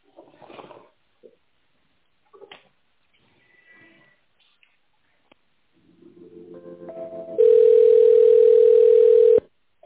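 Telephone ringing tone on a line while a call is transferred: a loud, steady beep holds for about two seconds, preceded by quieter buzzy tones that build up, with brief faint sounds earlier.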